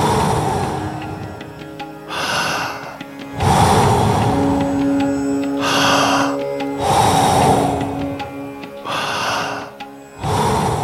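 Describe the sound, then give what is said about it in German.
Deep breaths in and out during a guided breathing exercise. Several long, full inhales and forceful exhales alternate in a steady rhythm, each one a loud, breathy rush of air. “Voll einatmen und dann wieder loslassen. Genau so weiter. Noch fünf. Komm, hol alles raus.”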